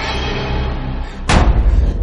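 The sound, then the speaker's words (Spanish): A basement door slams shut in a supernatural horror film, one heavy, sharp thud landing after a steady low background hum and ringing on briefly afterward. “cierra la puerta del sótano.”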